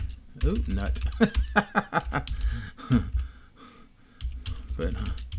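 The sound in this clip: Typing on a computer keyboard, soft key clicks running beneath a person talking throughout.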